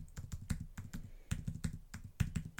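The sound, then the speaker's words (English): Computer keyboard typing as a long binary number is entered, many quick, crisp keystrokes falling in rapid bursts separated by short pauses. “I'm just going to type that number in.”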